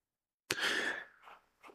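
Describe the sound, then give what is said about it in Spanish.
A single sharp sneeze bursts out abruptly, followed by a few softer breathy exhalations, with no talking. “Me dieron ganas de estornudar”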